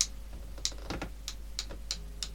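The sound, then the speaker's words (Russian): A pencil taps on a table in a quick, irregular series of light, dry ticks, each one short and sharp over a faint steady hum. “Звук глухой, надо карандаш получше. Показывай, плоскогубцы возьми. По столу.”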